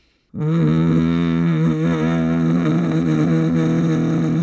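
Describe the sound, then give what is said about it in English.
A person makes a closed-mouth buzzing hum with the tongue pressed to the roof of the mouth. It is a low, steady, loud drone that starts abruptly and is held alone to the end. “But if you have your mouth closed and you put your tongue at the roof of your mouth and do it, it sounds like this.”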